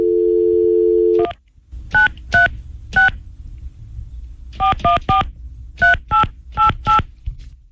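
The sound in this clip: A steady telephone dial tone lasts about a second, then ten loud touch-tone beeps sound as a number is dialed, spaced in uneven bursts of three, three and four, with no talking.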